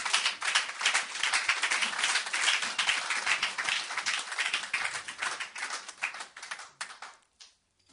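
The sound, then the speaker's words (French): A church audience clapping in praise of the Lord during a sermon, with a thick wash of applause that continues steadily and then dies away near the end. “Est-ce qu'il peut acclamer le Seigneur?”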